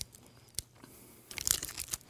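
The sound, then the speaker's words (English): Biting into a white chocolate bar with fruity cereal baked in, one sharp crack followed after a pause by a dense cluster of crisp crunches. “I gotta eat fast. It's like white chocolate with Fruity Pebbles baked in. Here we go.”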